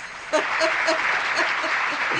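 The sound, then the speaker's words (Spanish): Audience applause, a steady hiss of many hands clapping across the whole short stretch, with a few brief voice-like calls poking through. “Y este aplauso para vos, Eduardo, más que nunca.”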